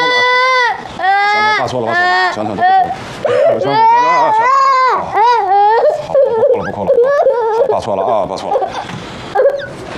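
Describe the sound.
An infant cries continuously in loud, wailing bursts whose pitch rises and falls, with only brief breaths between them.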